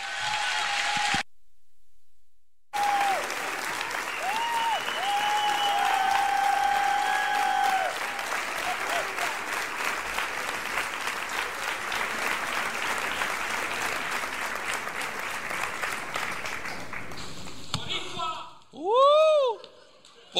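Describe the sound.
A church audience applauds to welcome its pastors with sustained, dense clapping and crowd noise for about twenty seconds. The level dips briefly early on, voices mix in, and a few higher cheering tones rise near the end.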